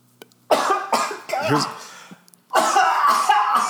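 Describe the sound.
Harsh coughing from a person with a tickly throat: a few loud, rough bursts in quick succession, a short pause, then another strong burst.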